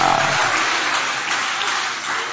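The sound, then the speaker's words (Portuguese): Congregation clapping hands during a lively church worship service, a dense, steady wash of applause that holds at an even level throughout without any voices breaking through. “Tá fraco, Jesus merece melhor. Mistura palmas com glória.”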